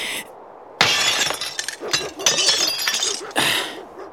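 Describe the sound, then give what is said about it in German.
A glass window pane is smashed, with a sharp crash at about 0.8 s and then a long run of bright shattering, tinkling shards and crunching glass, and a second loud burst of breaking near the end. “Jetzt geh mal aus dem Weg. Ich schlag die Scheibe ein.”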